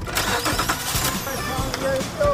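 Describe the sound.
A car engine is cranked and starts, with a rapid, rhythmic churning of the starter motor that gives way to a rougher, steady engine sound, and voices are heard over it.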